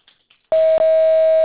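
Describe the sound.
A voicemail recording tone sounds as a single loud, steady, mid-pitched beep. It starts after a faint stretch, breaks very briefly, then holds unchanged to the end.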